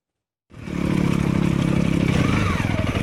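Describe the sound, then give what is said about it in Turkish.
Motorcycle engines from a group of enthusiasts riding over stony roads in the Amanos mountains of Osmaniye. After a short silence the rumble starts abruptly, then holds steady and loud with rapid pulsing and some clatter. “Taşlı yollardan geçtiler, dik yamaçları aştılar. Osmaniye'de bir grup motosiklet tutkununun hedefi Amanos dağlarındaki Keldaz mevkisiydi.”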